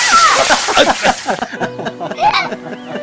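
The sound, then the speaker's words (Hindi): Water splashing as a bucket is poured over people at a water festival, a broad wet splatter under lively voices and laughter. “इतने में किसी ने चौतान जी, वर्मा जी और Yemen पर एक बाल्टी पानी उंडेल दिया।”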